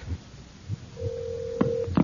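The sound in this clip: A telephone tone sounds after a call is cut off: a steady mid-pitched tone holds for about a second, following soft thumps and ending with a couple of sharp clicks.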